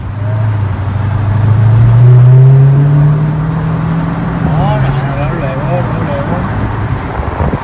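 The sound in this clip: A 2017 Dodge Charger Hellcat muscle car accelerates, its loud, deep engine drone climbing in pitch and then easing off and settling, while people talk over it.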